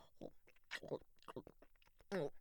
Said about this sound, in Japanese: あとはこいつを口に含んで、ぐにゅぐにゅして妙な感触だな。歯で軽く噛んでみるか。